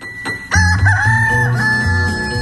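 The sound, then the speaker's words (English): A rooster from a hen house crows once, loud and drawn out. Its strained call holds a fairly steady pitch before trailing off, with no other sounds around it. “I got a notice this morning from the hen house. Hank said he's going to crow up to about 10 o'clock”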